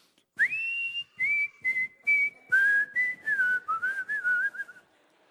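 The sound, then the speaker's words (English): A person whistles a song's harmony line as a clear run of many short, pure notes. The phrase steps and slides between pitches with brief gaps, and no talk is heard. “can anybody whistle the harmony on it?”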